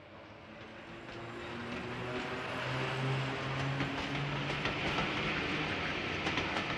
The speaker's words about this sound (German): Ich stehe am Gleis und winke meiner Oma nach.